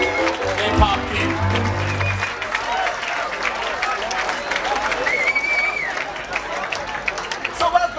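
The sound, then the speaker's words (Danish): Crowd atmosphere inside a tent at Tønder Festival: dense applause and clapping over a steady bed of chatter and voices, with a low tonal hum during the first couple of seconds. “Jeg ved, du har lavet lidt stemning derfra, du lige tog med på bånd. Det synes jeg lige, vi skal prøve at høre, så kan man lige fornemme, hvordan det var i teltet.”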